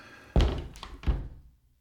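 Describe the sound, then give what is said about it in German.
A bedroom door is pushed shut by hand, giving two dull wooden thunks about two-thirds of a second apart, the second a little softer, with no voices. “Eine Hand schließt die Schlafzimmertür.”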